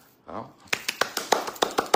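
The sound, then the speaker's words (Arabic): Sharp hand claps ring out in a quick, even run of about nine hits, following a brief voice at the start. “تصفيق حاد.”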